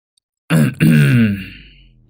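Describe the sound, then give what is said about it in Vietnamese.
A woman clears her throat behind a man working a rice-husking mill beside a house: a short rough catch, then a longer voiced, gravelly rasp that fades out, loud and alone. “ở phía sau lưng anh bất chợt có tiếng của bà Hai hắng giọng.”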